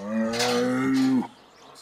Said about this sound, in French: C'est l'heure du repas pour les 30 vaches et veaux de Santo Sanchando.